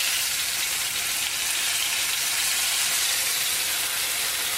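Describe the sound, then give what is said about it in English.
Food fries in a pan just after being flipped, giving a continuous dense sizzle with steady hissing crackle at an even, fairly loud level and no voices over it. “This shouldn't splatter too much, but if it's splattering a little bit, you can definitely use a little splatter shield”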